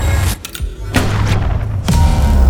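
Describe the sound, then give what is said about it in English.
A coil gun firing, with a few loud, heavy booming discharges separated by a broad rumbling roar. The blasts are forceful and deep, with no voices over them. “The coil gun is firing.”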